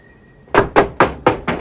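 Five firm knocks on a door come after a brief quiet, evenly spaced and loud, each a sharp hollow thud.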